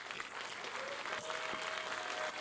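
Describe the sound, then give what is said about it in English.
Applause from a church audience honouring veterans, a steady, even patter of many hands clapping without pause, fairly faint throughout. “Will you please give all of our veterans a big clap offering?”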